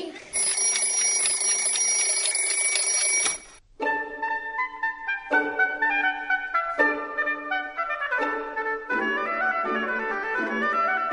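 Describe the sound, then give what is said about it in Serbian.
An alarm clock rings with a loud, continuous metallic bell for about three seconds, then stops and gives way to a bright tinkling chime melody that plays on steadily. “Budilnik.”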